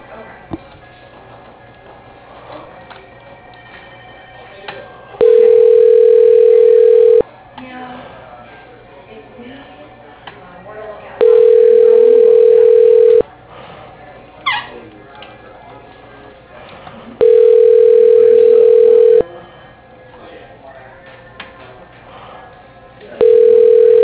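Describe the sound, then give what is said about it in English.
A phone tone plays while an office call is transferred to a voicemail line: a steady, low-to-mid beep repeats in evenly spaced bursts of about two seconds each, three full bursts and the start of a fourth, over a noisy background. “Yes, let me transfer you now. One moment, please.”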